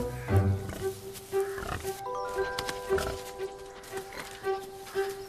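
Grunts and snorts from a white pig with black markings, led by an old man over leaf-strewn ground in woodland. A few short grunts come at irregular intervals, with steady tones running underneath.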